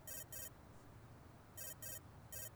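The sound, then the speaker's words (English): A mobile phone rings in short double bursts of a bright electronic tone, two pairs followed by the start of a third, faint and steady with no talk. “Your phone's ringing. I've been wondering what that sound is.”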